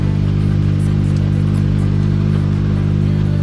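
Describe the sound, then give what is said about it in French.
A Citroën C3 Rally2 rally car arrives at a rally stage in Braine-le-Comte, its engine a loud, steady low drone with a constant hum and no clear change in pitch. “C'est d'ailleurs l'équipage allemand qui arrive maintenant avec la Citroën C3 Rallye 2.”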